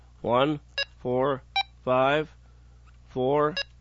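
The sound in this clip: Radio keypad beeps as a frequency is entered: three short, bright tones sound between stretches of a man talking, each beep brief and separate.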